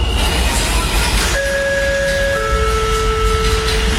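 Train carriage sound effect: a constant loud rumble of rail noise, with steady electronic tones joining partway through and continuing over the rumble.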